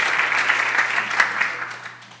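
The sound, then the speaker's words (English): Applause from a crowd cheering the winning team at the end of a team game, a dense steady clatter of many hands that gradually fades toward the end. “Let's give it up for the crowd team. Well done.”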